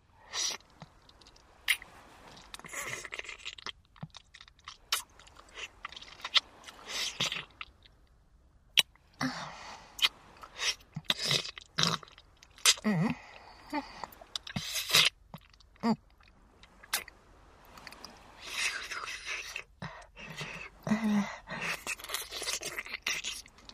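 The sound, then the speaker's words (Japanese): Wet chewing and mouth sounds of someone eating cherries, a long run of many irregular smacks, clicks and soft crunches with no talk. “私はデザートのさくらんぼちゃんいただいてるから。”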